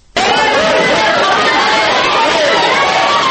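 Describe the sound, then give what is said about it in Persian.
Dozens of dissatisfied company customers shout in protest in a Tajik Supreme Court hall right after a verdict. The uproar breaks in abruptly and holds as a loud, dense, steady clamour of many voices. “این داد و غریوی ده ها مشتری ناراضی شرکت ماوراءالنهر است که به محض صدا دادن حکم در تالار دادگاه عالی تاجیکستان بلند شد.”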